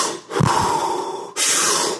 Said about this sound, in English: So an exhale would be this.